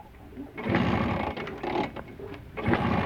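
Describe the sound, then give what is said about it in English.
Buzzy small-engine drone of a Vespa scooter, which people compare to a lawnmower, rattling along steadily at a fairly loud level with a few brief surges and dips. “Is it a lawnmower? It's a Vespa. That's a Vespa? Right. Vespa sound like lawnmowers.”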